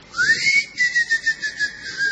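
A person whistles to call someone, an alternative to ringing a bicycle bell: a clear, loud whistle that opens with a rising glide, then breaks into a series of short repeated notes at a steady high pitch, with no other sound.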